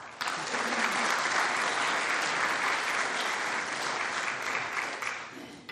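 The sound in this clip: Audience applause welcoming two speakers to a talk on compulsory voting, dense steady clapping that starts abruptly and carries on evenly for over five seconds before easing slightly.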